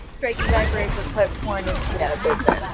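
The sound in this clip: A character fires rapid gunfire in a team-based shooter video game, a crackling volley of shots buried under overlapping chatter from players talking throughout.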